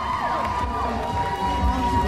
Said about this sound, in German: 1500 sind gekommen, um mit dem Dancing Man zu feiern und zu tanzen. Und als Sean die Bühne betritt, bricht ein Jubel aus.